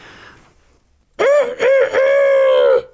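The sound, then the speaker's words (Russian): A rooster on a gate crows loudly, one long harmonic call broken into three segments that ring out strongly and then cut off. “на воротах которого сидел петух и кричал изо всех сил.”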